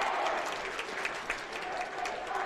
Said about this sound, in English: What you are hearing now is the Campbell County Campbell faithful cheer.